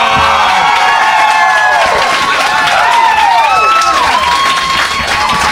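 Comedy club audience applause and cheering: loud, dense clapping runs throughout with whoops and shouts rising over it, steady to the end.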